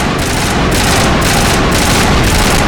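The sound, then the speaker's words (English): Gunfire from shooting enemies in a video game: loud, dense bursts of shots in a fast, steady rhythm, a few per second, forming a continuous roar throughout with no talk. “But I know that I'm gonna shoot them.”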